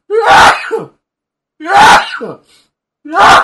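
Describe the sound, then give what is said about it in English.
Three loud, violent sneezes in a row, each a sharp explosive burst with a short gasp before it, separated by brief silences, the last cut off at the end. “Yes, I was sneezing. I'm sorry. I sneezed violently.”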